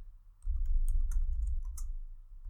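Someone types on a computer keyboard to run a Google search, producing many soft, quick key clicks in an irregular rhythm over a low background rumble.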